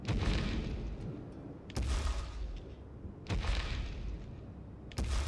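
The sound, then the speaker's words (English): A giant's tree-shaking footsteps thud in the distance outside castle gates: heavy, booming impacts at a slow, steady pace, with a continuous low rumble between them. “tree-shaking footsteps somewhere in the distance outside the castle gates.”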